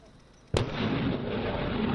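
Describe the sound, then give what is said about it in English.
American artillery fires during Taiwanese military preparations: a single sudden, loud blast gives way to a sustained roaring rush that carries on to the end. “In Taiwan, the military prepares for war with American artillery designed to sink Chinese invaders.”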